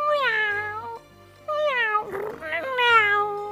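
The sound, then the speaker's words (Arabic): A cat meows in drawn-out, wavering cries, with three clear calls rising then falling in pitch. A brief rougher, breathy sound falls between the second and third calls. “واقتربت القطة عبلة من الكلب نمرود، هرت بين يديه”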